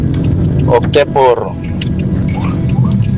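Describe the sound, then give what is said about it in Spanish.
A car being driven toward a house gives a steady low road rumble that runs through the whole clip, with brief voice sounds over it near the start. “Es que voy conduciendo hacia la casa.”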